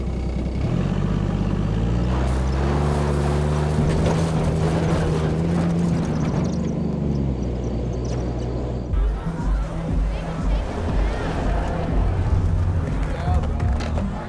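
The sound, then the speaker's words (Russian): An old car drives off at night, its engine droning and revving with shifting pitch, then settling into a rough, steady rumble mixed with other sounds. “Джон выезжает на своей старой машине.”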